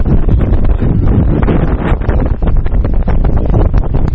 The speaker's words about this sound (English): Sorry about the wind.